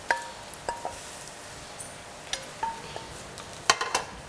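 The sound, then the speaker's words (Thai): Blanched pork being tossed with spicy salad dressing in a mixing bowl: sparse, light clinks and taps of a utensil against the bowl, irregular and fairly faint, with no talk. “ทีนี้เราก็เอาส่วนผสมนี่นะคะที่มีเนื้อสัตว์นะคะก็คือหมูลวนเราเนี่ยนะคะใส่ในอ่างให้คลุกกับน้ำยำให้เข้ากันก่อนนะคะ”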